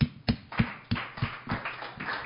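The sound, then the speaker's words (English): Audience applause welcoming a guitarist to a Sunday night songwriters' stage, heard as a steady run of evenly spaced, crisp claps that keep a regular rhythm and fade slightly toward the end. “Please put your hands together.”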